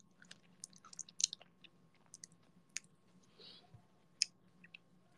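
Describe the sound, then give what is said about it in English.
Chewing on a piece of fruit: many small, crisp bites and wet clicks in an uneven rhythm, fairly faint and with no talking, over a steady low hum. “save the fruit. I'm about to eat it. Or at least some of it.”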